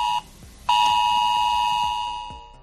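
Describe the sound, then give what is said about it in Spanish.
An emergency alert test warning beep sounds on mobile phones, marking a civil protection test message sent to residents of an area. A brief steady electronic tone stops, then a long sustained one plays loud and alone before fading. “Este era el sonido de aviso que advertía de ese mensaje de prueba que recibían en sus móviles los vecinos de la zona.”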